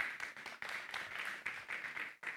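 A church audience claps together to welcome a pastor, a dense, continuous patter of many hands that holds steady for the whole stretch with only brief dips, fairly faint and with no talk over it.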